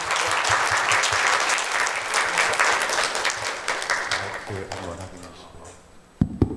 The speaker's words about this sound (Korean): 한번더큰 박수 부탁드립니다.